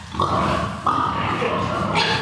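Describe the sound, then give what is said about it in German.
Grunts and squealy snorts from boars, around twenty male breeding pigs in a stall, come as a few loud, tonal calls in quick succession over a constant low background. “Matteo Eppli zeigt uns rund 20 Eber im Stall nebenan.”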